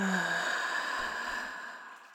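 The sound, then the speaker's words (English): Audible exhale during a guided breathing exercise, released after a deep breath in through the nose, a held breath and one extra sip of air: a long, breathy whoosh that fades gradually over about two seconds. “and holding it at the top, and taking one more sip of air, and an audible exhale out.”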